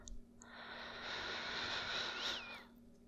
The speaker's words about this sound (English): Breathe in and count in your mind how long it takes to do it comfortably. Long, deep breath like this.